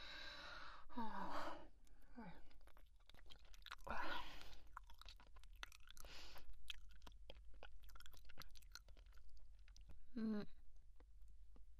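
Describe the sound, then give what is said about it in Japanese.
Chewing while eating a banana: soft, moist mastication sounds continue steadily throughout, broken by a few short breathy gasps or sighs. “私のご飯なのに、あなたの方が食べてるし。”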